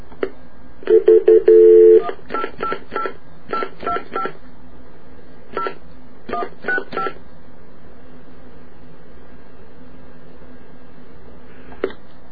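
Touch tones of a toll-free telephone number being dialed: a quick run of beeps, several close together at first and then spaced more unevenly, followed by a long, quiet open line with a faint click near the end.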